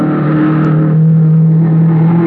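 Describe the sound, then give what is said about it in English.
Engine of a low, cut-down blue race car at speed trials on a long sandy beach, a loud, steady mid-pitched engine drone with strong harmonics sustained throughout. “They were racing in a low, cut-down blue car. The frame had looked familiar as it whizzed by me.”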